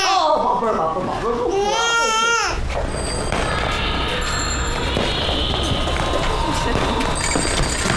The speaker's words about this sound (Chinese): 不哭不哭，宝贝儿宝贝儿